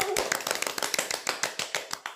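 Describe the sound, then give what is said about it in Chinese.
Hands clapping in a quick, even rhythm, many sharp distinct claps from a small group, loud and clear with no talk over them. “此处应该有掌声。”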